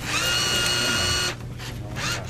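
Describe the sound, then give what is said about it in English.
Mechanical whirring and grinding from a robotic Pepsi soda vending machine as it picks up a can and dispenses it, a steady tonal machine hum for over a second that stops abruptly, followed by quieter rattling. “Kurt Davies from Greenpeace feeds a couple of dollar bills into a Pepsi machine. Bit of a robot machine, isn't it? I've never seen that before. It kind of picks it up and gives it to you.”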